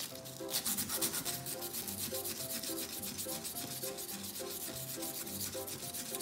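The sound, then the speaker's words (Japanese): Sandpaper polishes a shoemaking needle whose tip is pressed into a table to hold it still. Many quick, even back-and-forth scratching strokes rasp in a steady rhythm, faint and with no voices. “カーブのこっち側ですねを磨いてますその時もやはり針先、えー、テーブルに突き立ててですね針先が動かないようにしてこんな風に磨いていきます”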